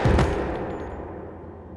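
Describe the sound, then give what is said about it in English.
A single gunshot fired at a man: a loud, sharp burst at the very start that decays into a long, fading tail. “You didn't have to shoot him.”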